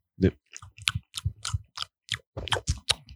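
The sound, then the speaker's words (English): Wet lip smacking while chewing, done as ASMR: a rapid run of many crisp, moist smacks and clicks, each short and sharp, with no talk. “Why are you smacking? ASMR, ASMR. Give them some ASMR.”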